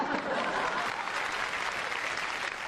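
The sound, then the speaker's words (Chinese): Audience applause at a Chinese comedy stage performance, a steady, even wash of clapping that holds at the same level throughout. “朋友们，咱鼓鼓掌吧。”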